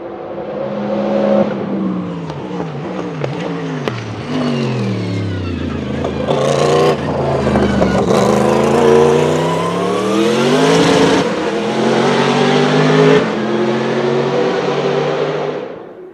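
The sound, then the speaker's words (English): A V8 Corvette with a split exhaust revs loudly, its pitch rising and falling through several throttle blips before a long sustained high-rev run. No one talks. “it sounds totally different than what we're used to from a V8 Corvette. Easily mistaken for a Ferrari these days. both in looks and in sound.”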